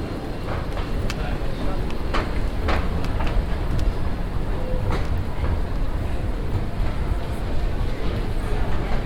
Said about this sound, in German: Am Bahnsteig 2 fährt gerade die U2 Richtung Messestadt München ein.